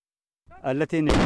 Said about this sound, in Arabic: اندلعت أصوات المدافع في الجبهة الأمامية